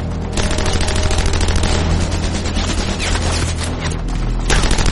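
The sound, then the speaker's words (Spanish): Rifle and machine gun fire from German troops in a woodland battle, a dense and continuous loud rattle of rapid shots with no pauses. “los alemanes abren fuego también con rifles y ametralladoras.”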